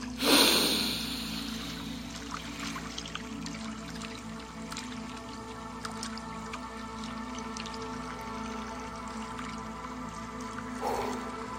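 A deep breath is taken: a breathy rush at the start and another short one near the end, with a long quiet stretch between.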